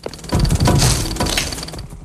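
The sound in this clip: Bric-a-brac knocked off a table and breaking: a loud burst of clattering, crashing objects, with a few harsh impacts over the first second, then a fading rattle of debris.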